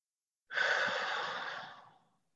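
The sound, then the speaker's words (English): A deep relaxation breath, guided to go in through the nose and out through the mouth, comes as one long, soft, airy exhale that swells quickly and then fades out smoothly. “And it's good to breathe deep through your nose and out your mouth. You might want to do that a few times.”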